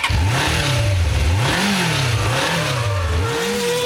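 Car engine revving hard: a loud, continuous mechanical roar whose pitch rises and falls in several repeated cycles, with no talk over it.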